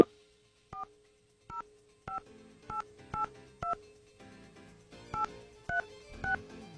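Touch-tone beeps ring out as a telephone number is dialed on a phone keypad, a series of short, sharp two-note tones at uneven intervals over a low steady hum.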